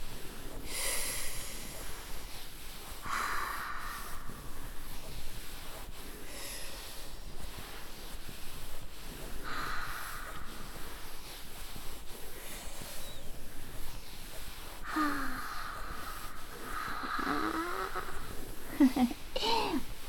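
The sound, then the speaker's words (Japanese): Slow, deep breaths accompany a stretching exercise for the hips, lower back and back. A few faint, drawn-out inhales and exhales come seconds apart, some with a nasal, snorting edge. “同じようにゆっくり。ゆっくりね、しっかり呼吸をして、”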